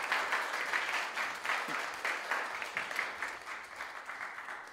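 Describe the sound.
Audience applause welcoming a guest speaker to a church service, dense steady clapping that keeps going without a break throughout.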